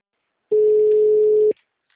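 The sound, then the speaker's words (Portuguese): A telephone busy signal sounds as a single steady, mid-pitched tone lasting about one second, alone, with silence before and after. “Pode pressionar porque senão agora o número está ocupado.”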